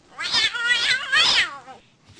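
A cat meows in two long, wavering, drawn-out cries, loud and alone, with a brief faint sound trailing after.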